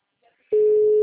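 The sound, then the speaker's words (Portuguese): Telephone ringing tone while placing a call: after a brief near-silence, a loud, steady single-pitched tone starts midway and holds unbroken to the end. “Dando uma ligação.”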